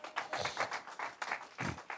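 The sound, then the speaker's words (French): A church audience applauding during a sermon. The clapping comes in faint, uneven bursts with short gaps between them, quiet overall. “Acclame le Seigneur pour toi-même.”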